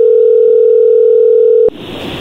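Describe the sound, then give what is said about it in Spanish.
A telephone call tone plays on an outgoing call to Colombia, a single steady, loud tone lasting under two seconds that cuts off abruptly into line hiss. “Vamos a llamarle a Colombia”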